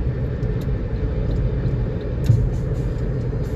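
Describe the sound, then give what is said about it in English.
A car travels on the interstate, heard from inside as a steady low rumble of road and engine noise that stays even throughout, with a few faint ticks above it. “I'm driving home. I'm recording this while I'm driving home.”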